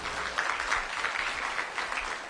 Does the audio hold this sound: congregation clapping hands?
yes